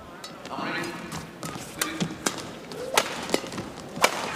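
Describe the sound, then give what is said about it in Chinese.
A table tennis serve and the strokes that follow give a few crisp, sharp ball clicks spaced irregularly, with voices talking underneath. “现在是刘胜书发球，蒂娜接发球。”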